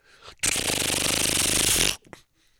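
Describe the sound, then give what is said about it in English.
A credit card machine prints a receipt with a steady, rasping mechanical whir that runs for about a second and a half, then stops abruptly and gives way to near silence. “The last bit of suspense on the trip is waiting to see if his credit card will clear. And the credit card machine goes,”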